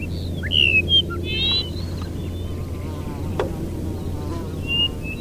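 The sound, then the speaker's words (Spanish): Buzzing insect caught in a field recording of Dupont's lark. A low, steady drone runs throughout, while brief high bird chirps and trills break in above it now and then. “Que aquí se oye hasta un insecto. Sí, es una grabación.”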